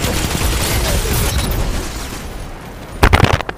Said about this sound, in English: He actually hit me with a grenade launcher.